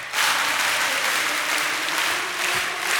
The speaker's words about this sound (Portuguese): Palmas pro Senhor. Você, palma. Mais uma vez.